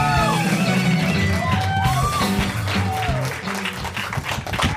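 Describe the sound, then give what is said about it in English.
Audience applause greets the two hosts at the start of a live comedy show. The clapping is dense and steady, and sustained musical tones play beneath it. “Why don't you guys put your hands together for tonight's host, Mr. Sean Conroy and Eddie Pepitone?”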